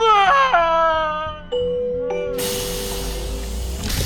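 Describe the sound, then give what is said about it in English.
Wailing and moaning across an island: sustained, wavering tonal cries that slide downward in pitch, followed by a broad rushing hiss that takes over the second half. “What's going on? There's a moaning sound all across the island.”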